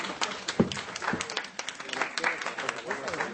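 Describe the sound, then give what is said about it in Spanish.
Scattered audience clapping during a trivia game at a comic convention panel on Avengers vs X-Men: many sharp, uneven claps rise and fall under people talking throughout. “Genosha, ya. Un aplauso,”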